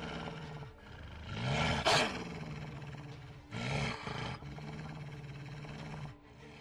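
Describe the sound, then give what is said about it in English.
A wolf in a video game fight gives harsh roaring snarls. Loud bursts rise and fall over a lower rumbling growl, with no one talking. “I guess I'll try to finish off this wolf here.”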